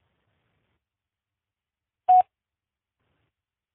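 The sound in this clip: A single short electronic voicemail recording beep: one brief, steady, mid-pitched tone alone in silence.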